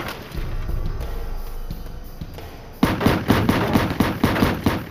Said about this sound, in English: Muzzle bursts ripped through the night air.